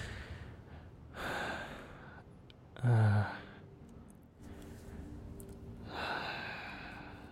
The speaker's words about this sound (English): Just gonna kind of widen my eyes and take a deep breath in.